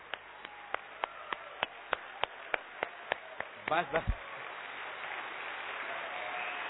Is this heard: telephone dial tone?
no